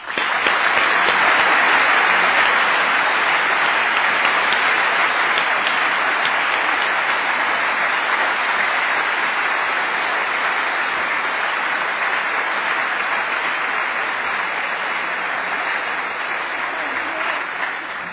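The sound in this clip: Sustained applause from a 1999 debate audience welcoming two speakers, dense even clapping that carries on steadily for about eighteen seconds and eases slightly toward the end.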